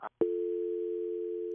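A telephone dial tone after a phone call has cut off: a brief blip, then a loud, steady single-pitched hum that holds unbroken to the end.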